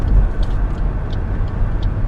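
Steady low road rumble from a moving car, a continuous deep engine and tyre drone with a few faint higher swishes over it and no talk.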